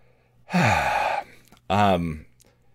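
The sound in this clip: A deep breath: a long, loud gasping inhale, then after a brief pause a shorter, voiced sighing exhale. No talk is heard around it.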